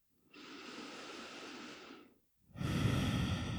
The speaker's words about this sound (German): nimm direkt ein paar tiefere Atemzüge ein und aus hier.